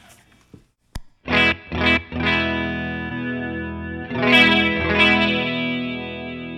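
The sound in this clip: Guitar played through a tape delay unit set to an even blend of two tape decks: a few struck chords ring out and sustain, trailing wobbly, chorus-like echoes before fading.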